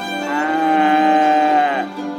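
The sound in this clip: A cow gives a single loud, long moo that holds a steady, rich tone and then drops off sharply at the end.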